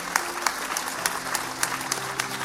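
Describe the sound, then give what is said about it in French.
Audience applause in a church service, clapping for Jesus: steady, dense clapping with regular sharp accents, over a low sustained tone. “Can we give Jesus a big clap? Est-ce qu'on peut applaudir Dieu? Come on.”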